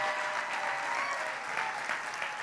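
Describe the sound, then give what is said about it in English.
An audience clapping their hands during a church worship service: a continuous, fairly soft patter of many hands with no clear beat, sustained throughout. “In the name of Jesus, just clap your hands”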